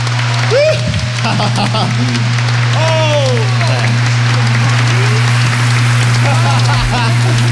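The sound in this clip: Concert audience applause at the Sejong Center for the Performing Arts after a six-member disco group's show. Dense clapping and scattered shouts rise over a steady low hum.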